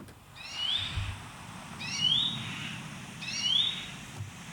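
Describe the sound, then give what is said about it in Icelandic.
Bird song from an unidentified species repeats three times, each phrase a short rising whistled note with faint accompanying harmonics, spaced about one and a half seconds apart over a low background rumble, with no voices. “En þetta er Fugl dagsins hjá okkur í dag.”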